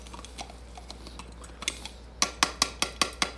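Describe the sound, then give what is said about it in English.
A lid being unscrewed from a drink cup, giving a run of small plastic clicks that start faint and sparse, then turn louder and evenly spaced near the end over a low steady hum. “let me get my lid here and let me take this one off. Unscrew this one.”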